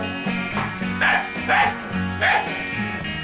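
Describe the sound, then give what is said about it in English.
A dog yaps a few times in short bursts, joining in as backup to a song and sounding over steady harmonic music. “I'm trying to get the dog to do backup vocals, but it's really difficult.”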